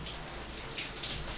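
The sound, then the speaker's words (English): Water running through long hair in a bath, a faint, steady hiss of flowing water that continues evenly throughout, with no talk. “Yeah, I can run the water through it.”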